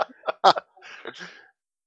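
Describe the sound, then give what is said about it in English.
A man clears his throat with a few short, raspy bursts, then gives a longer, rough rumbling rasp that fades out. “Simon cleared his throat.”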